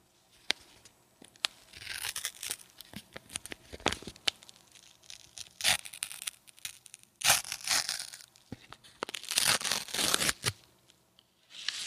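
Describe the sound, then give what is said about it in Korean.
Tearing open a packet of Solomon's seal tea: crinkly rips and rustling come in uneven bursts, some loud and sharp, others softer. “저한테 있는 건 바로 둥글레차입니다. 그럼 이걸 뜯어볼게요.”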